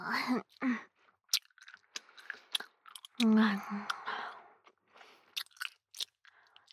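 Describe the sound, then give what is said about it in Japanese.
Gum being chewed close up, with wet smacks, crunching bites and irregular clicking mouth sounds, broken by a couple of short voiced hums. “ガムを噛む音が気になるのかな？”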